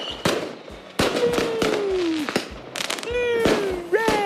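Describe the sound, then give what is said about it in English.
Fireworks going off at a show: a rapid, loud run of sharp bangs and crackling bursts, with sustained whistling tones that slide slightly downward between the blasts. “It's the sound of the fireworks here.”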